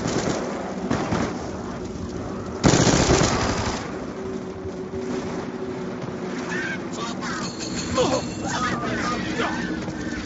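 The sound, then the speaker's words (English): Gunfire from a Ferret .50 cal in a video game: a loud, sharp burst stands out partway through over a continuous rumbling, engine-like background with smaller bursts of noise. “I got a guy down. The Ferret 50 cal isn't the one hit kill anymore.”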